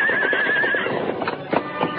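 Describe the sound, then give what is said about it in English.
A horse whinnies, then its hooves clatter as it starts down a rocky slope and loses its footing. A high, wavering neigh fills the first part, followed by irregular, fairly loud hoof knocks and scrapes. “Finally, the horse started downhill. Then, without warning, the animal lost its footing.”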